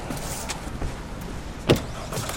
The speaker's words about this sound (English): She climbs into the driver's seat and he gets in beside her.